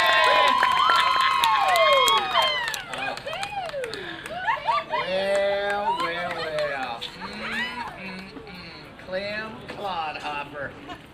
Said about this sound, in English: put your hands together, give her a big whoopin' and holler and welcome for my daughter, Miss Sally Mae.